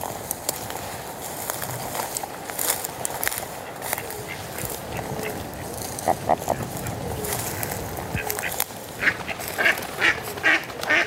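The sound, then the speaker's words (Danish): Ducks quacking as they are startled from the water and fly off, a series of sharp, fairly loud quacks that grow more frequent toward the end, over a steady outdoor background. “Fik vi lige skræmt på ender.”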